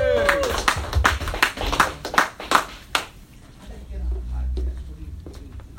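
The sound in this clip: An audience claps and applauds at a comedy show in a quick burst of sharp, uneven hand claps. The clapping dies away after about three seconds into a low background murmur.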